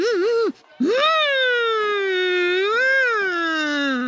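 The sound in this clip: A child imitates a motorcar with their voice, making a humming, engine-like tone. A short wavering burst comes first, then a brief gap, then a long sustained drone that climbs, sways gently up and down, and slowly sinks in pitch.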